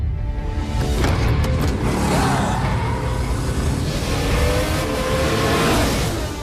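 A racing car drives with a loud, continuous engine roar, its revving tone sweeping up and down in pitch throughout.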